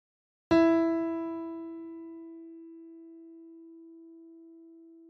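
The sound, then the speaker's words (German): The musical note Re (D) rings out as a single clear tone, struck once with a sharp onset and then held, fading slowly and evenly. “Der Ton heißt Re und befindet sich zwischen Do und Mi. Also Re klingt dann so.”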